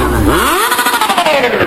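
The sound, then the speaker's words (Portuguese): A motorcycle engine revs hard at a party, its pitch climbing quickly and then easing back down in a long smooth arc, loud and alone. “põe o capacete e sobe em cima da motona, solta o barulhinho que as novinhas se apaixona”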